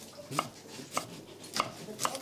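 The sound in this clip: A kitchen knife chops an onion into cubes on a board, giving four distinct, evenly spaced sharp knocks, fairly faint, with no talk.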